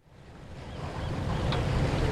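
Waves wash on San Francisco Bay as a steady, broad rushing surf that swells gradually louder, with wind noise mixed in.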